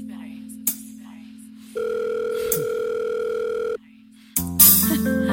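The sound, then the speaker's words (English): A telephone sounds with steady electronic tones, alone and without talk. A low sustained tone shifts to a higher, brighter tone for about two seconds, then drops back before a louder, richer burst of tones near the end. “He better answer this phone.”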